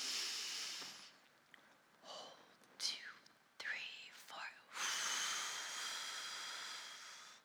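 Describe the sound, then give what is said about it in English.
Slow breath drawn in during a guided breathing exercise, soft airy hissing with faint breathy whispering sounds in the middle, then a longer, steady intake of breath filling the last few seconds. “So shall we breathe together? Ready? And you breathe in.”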